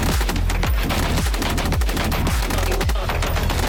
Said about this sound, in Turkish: geliştirilen mobil araç platformu PMT-76 makineli tüfekle entegre edildi. Test görüntüleri MK tarafından paylaşıldı.